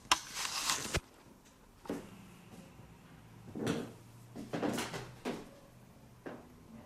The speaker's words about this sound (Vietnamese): Nghe tiếng cột kẹt cột kẹt cột kẹt.